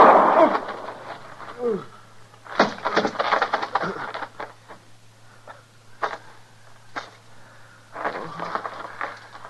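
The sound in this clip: A radio drama gunshot cracks out once, loud and abrupt, at the very beginning. Agitated voices and a few dull knocks and rustles follow.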